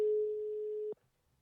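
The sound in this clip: A telephone call being placed gives a single faint, steady mid-pitched tone lasting about a second, which cuts off with a soft click into near silence.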